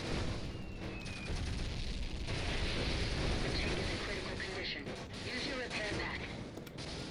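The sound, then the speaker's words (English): Distant mortar explosions in a video game battle: rumbling booms and bursts of gunfire-like crackle over a dense, noisy background that swells through the middle and eases toward the end. “Got some mortars off in the distance, so that's dangerous.”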